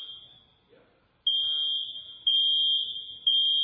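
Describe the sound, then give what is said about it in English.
A high-pitched electronic alarm sounds loudly as a steady piercing tone, first fading out, then returning in repeated held blasts of about a second each, with brief breaks between them. “What is that? It's an alarm. And when you hear that, what does that mean? It means something's wrong.”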